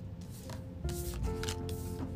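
Tarot cards are shuffled for a spread, making soft papery riffles and sliding rustles in several short bursts. The sound stays faint and close throughout.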